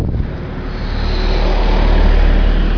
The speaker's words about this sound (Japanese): 今車が通る